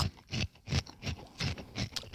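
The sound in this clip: Quiet crunching as vanilla corn snack balls are chewed: several soft, crisp bursts in an uneven chewing rhythm, with no talk.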